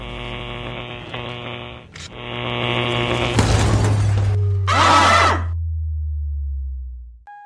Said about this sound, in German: verdammter Aufzug, was passiert? Dieser verdammte Aufzug ist kaputt.